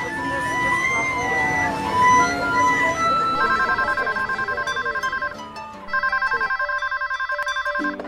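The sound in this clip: Telephone ringing for an incoming call to a free helpline for pregnant women: two sustained bursts of a trilling electronic ring, with a short gap between them, following busy mixed sound at the start.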